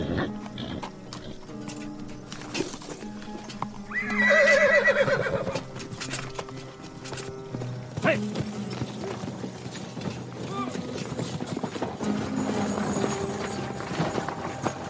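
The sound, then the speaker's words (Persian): A horse being mounted and ridden away in a village, hooves clip-clopping steadily throughout with a loud whinny partway through, over a faint background. “رحمت نامه رو میگیره و سوار اسبش میشه و میره”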